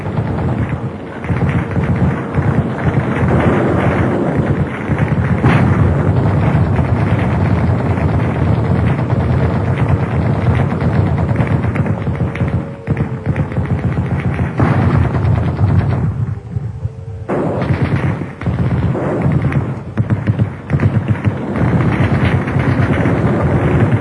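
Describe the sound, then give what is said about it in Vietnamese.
Sound effects of an air raid over Hanoi during a rainstorm: continuous rumbling thunder, bomb blasts, gunfire and rockets over steady rain noise. The sound is loud and dense throughout, with no talk. “Tiếng sấm, tiếng sét, tiếng bom, tiếng súng, tiếng tên lửa, tiếng mưa rơi”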